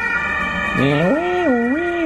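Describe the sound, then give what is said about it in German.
An ambulance siren comes through an open window, its wail starting after a short stretch of steady background tone. It sweeps up and down in pitch in a loud, continuous cycle. “Krankenwagen. Ja, ich habe Fenster offen gelassen, es tut mir leid.”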